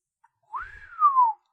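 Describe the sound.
One appreciative human whistle, clear and on its own. It glides upward, then slides down in a long falling sweep, with only a faint low rumble beneath.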